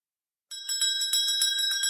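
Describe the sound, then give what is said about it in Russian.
A small bell rung by hand starts after a short silence, then rings bright and high in a quick, steady, shaken rhythm to the end. “Мама позвонила в колокольчик.”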